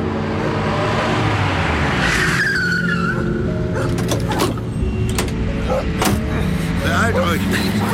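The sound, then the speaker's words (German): A car approaches along a quiet town street and skids to a stop with a squeal of tires over steady engine rumble, followed by a series of sharp knocks and clatters. “Es dauerte nicht lange, da wurde diese jedoch durch ein nahendes Fahrzeug gestört.”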